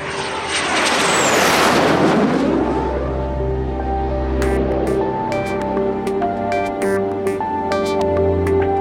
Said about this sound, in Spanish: Vamos, tomemos ese avión y volemos.